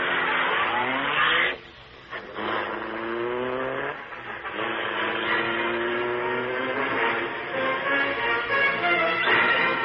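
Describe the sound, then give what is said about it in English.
Black Beauty car engine roaring to life and speeding off: a loud revving whine that climbs in pitch, drops off briefly, then surges again as the car accelerates away. “Britt Reed pressed a button. The great car roared into life. A section of the wall in front raised automatically, then closed as the gleaming Black Beauty sped into the darkness.”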